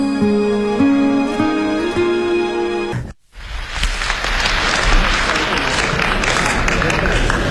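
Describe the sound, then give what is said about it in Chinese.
Audience applause at a stage performance: a voice is heard first, then a brief silence, after which dense, even clapping bursts in and continues at full loudness for about four seconds. “从掌声当中我听出来了 什么呀， 咱们亲爱的观众对你是比较熟悉啊。”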